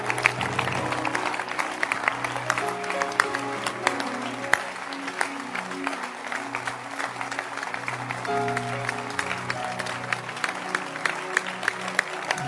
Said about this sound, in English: Clap your hands.